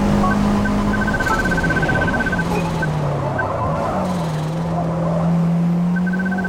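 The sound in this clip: Racing car engine in the Forza Motorsport video game, a loud steady drone whose pitch sags as the throttle is eased through a right hairpin, then climbs again, with intermittent high beeping tones.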